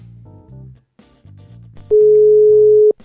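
A telephone ringback tone on an outgoing call: one long, steady mid-pitched beep that stands out above faint, low background music.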